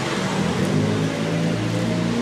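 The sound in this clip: A bus squeezes past on a narrow street, a steady, fairly loud wash of engine and road rumble that holds evenly throughout with no distinct peaks.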